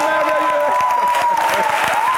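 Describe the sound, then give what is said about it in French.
An audience at a church service applauds and cheers in a loud, continuous wash of clapping, with voices and a sustained tone carrying over it throughout. “Acclamez encore votre Dieu.”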